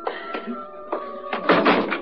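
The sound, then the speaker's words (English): A door being opened while a woman is helped toward the stairs: a few separate soft thuds and clunks, then a denser burst of rattling knocks, all over a faint steady hum. “Just lean on me, Mrs. Denton. Let me get the door.”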